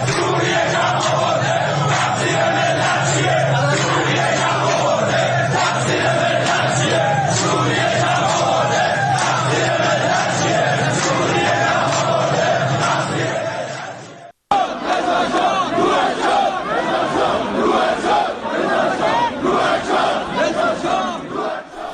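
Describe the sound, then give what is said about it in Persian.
A large protest crowd chants slogans about rising petrol prices and poverty, a loud, sustained roar of massed voices that carries on throughout with one brief break midway. “مردم میدن بنزین گرون شده، فقیرتر شده، یا شعارهایی میدن علیه کمک‌های جمهوری اسلامی به گروه‌های شبه نظامی در فلسطین و لبنان یا خود حکومت سوریه.”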